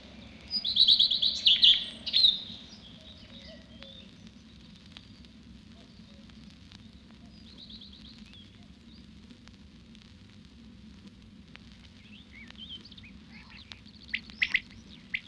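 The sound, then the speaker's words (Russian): A common redstart sings from a thin hazel branch in a spring forest: a bright burst of high, quick chirping notes at the start, then sparse faint notes later over a steady low crackling background. “песенку горехвостка, раскачиваясь на тонкой ветке орешника. Попоет, попоет, да и взлетит.”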